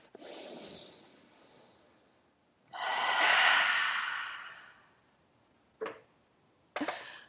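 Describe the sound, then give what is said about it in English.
A deep breath in and out during a wellness warm-up. A soft airy inhale is followed by a long, loud, breathy exhale, then two brief sharp breath bursts close together. “Okay, take a deep breath.”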